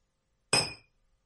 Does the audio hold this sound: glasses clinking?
yes